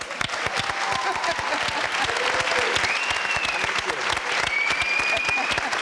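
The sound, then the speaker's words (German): Audience applause at a celebration of 20 years of the Cologne Tatort, dense, rapid clapping that keeps a steady level throughout. “Den können wir direkt nochmal applaudieren.”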